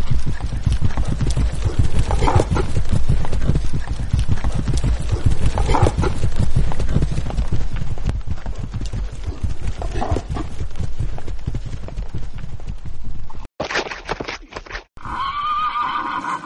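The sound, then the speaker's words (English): Horses gallop with fast, dense hoofbeats pounding in a steady driving rhythm, and a horse whinnies over the running hooves. “I got to get to the horses. We're here. Get up. Ride.”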